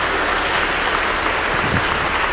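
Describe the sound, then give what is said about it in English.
Dense, steady audience applause for two people being honored at a presentation ceremony, filling the whole stretch as an even wash of many hands clapping, loud and continuous with no voices on top. “Let's give these two folks a wonderful round of applause.”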